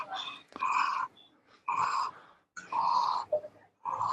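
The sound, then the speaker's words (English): Breathing in and out through a wide-open mouth and throat, with several long, raspy, wheezy breaths separated by short pauses, fairly loud and with no talk. “so I'm opening my mouth, I'm opening my throat as I'm breathing in and breathing out”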